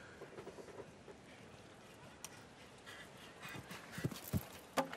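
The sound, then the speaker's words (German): Hoofbeats of a horse galloping in a show jumping round, set against a steady noisy background. A few heavier hoof thumps stand out near the end. “Die Galoppade ist ja enorm üppig, die Paule zur Verfügung stellen kann. Oh, und hier reitet er einen Galoppsprung weniger.”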